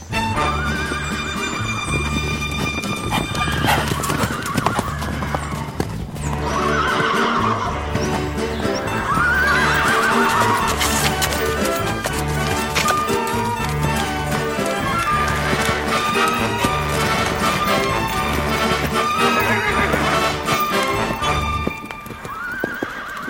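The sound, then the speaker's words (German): A horse neighing and clip-clopping, with steady hoofbeats and repeated whinnies that run loud and continuous over a dense background throughout. “Welches Tier suchen wir? Ich sag es dir. Das Pferd.”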